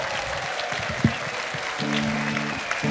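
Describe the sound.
A live stage show audience applauds to welcome the star of a casino revue. The clapping is steady and dense, with a sharp accent near the start.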